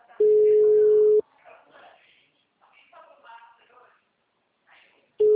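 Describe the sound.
A ringback tone plays on an ordinary phone call: a steady mid-pitched tone lasts about a second. Faint voices fill a long pause, then the same tone starts again.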